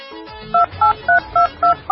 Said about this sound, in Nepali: Phone हान्नु नि त, फेरि चाहिँ खबर बुझाउनुहोस् त।